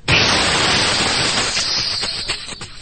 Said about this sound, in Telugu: ఏమైందా బాబు? మళ్ళీ ఏం కాలే సార్, టైర్ పంచర్ అయింది.